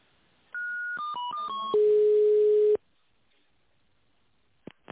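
Electronic telephone tones on a line while a call is being transferred: a quick run of short beeps at shifting pitches, then one longer, steady, lower tone, followed by silence and a couple of faint clicks.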